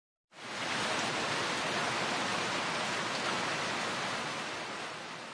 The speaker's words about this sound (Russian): Это шум дождя. В японском языке этот звук передается словом «за-за». «За-за» говорят, когда идет сильный дождь.